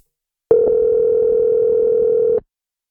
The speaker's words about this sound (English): We actually have, let me see, we have a caller calling in. Let me see if I can get him on.